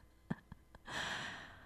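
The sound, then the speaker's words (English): A person draws a deep breath, a soft, sustained airy rush lasting under a second, preceded by a few faint short clicks. “Okay, take a breath, shall we?”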